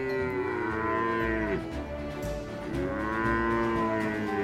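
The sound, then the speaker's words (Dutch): Cattle moo as a herd is driven through dry Wyoming wilderness. There are two long, deep, drawn-out lows, one after the other, with no voices. “Als hij zijn koeien door de droge wildernis van Wyoming leidt”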